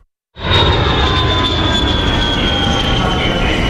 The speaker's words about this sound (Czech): Poletíte z letiště Václava Havla Praha? Máme pro vás 5 jednoduchých tipů pro hladký odlet.